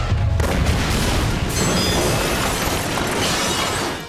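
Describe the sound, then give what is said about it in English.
A missile is fired on command from a control panel, a loud, dense rushing roar that starts abruptly and holds steady for about four seconds with no talk over it. “Control panel, fire missile.”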